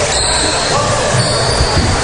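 A basketball bounces on the court during a game, with a few dull thumps that are partly buried under constant loud crowd noise.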